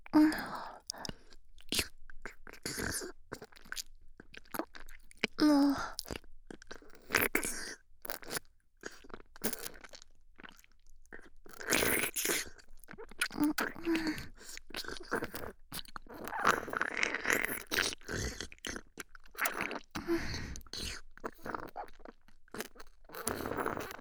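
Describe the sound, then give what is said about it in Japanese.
Someone eating and chewing food: many irregular, crunchy bites and wet chewing sounds repeat in quick bursts, fairly quiet and close, continuing throughout with brief gaps. “もったいないので、私がいただいてしまいましょうね。では、いただきます。”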